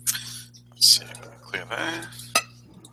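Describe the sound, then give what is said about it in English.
Fate dice are rolled in a tabletop role-playing game, giving a few sharp, light clattering clicks spread unevenly over a low steady hum. “Oh, I've rolled fate dice because that's what I'm used to.”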